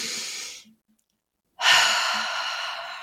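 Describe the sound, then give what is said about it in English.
A deep breath taken in two parts: a short airy breath that fades, a silent pause of about a second, then a longer, louder breath that slowly tapers off. “Okay, take a deep breath.”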